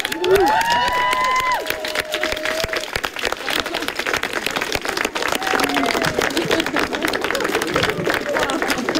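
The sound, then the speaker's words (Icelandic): Friends and family gathered at a home celebration clap together in a dense, continuous burst of applause lasting about nine seconds, with a few high whoops near the start and voices mixed into the clapping. “Og þá klöppum við bara.”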